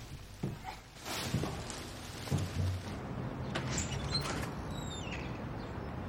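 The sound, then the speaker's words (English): Creaking of a red graffiti-covered door opening onto an alleyway, a drawn-out mechanical groan with a few soft knocks and shuffles, moderately quiet throughout. “A red graffiti-covered door opens, and a clothed Abe looks out into an alleyway.”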